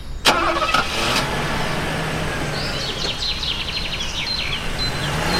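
A Mercedes car engine starts with a sharp crank at the beginning, then settles into a steady, even running drone, with birds chirping faintly above it partway through.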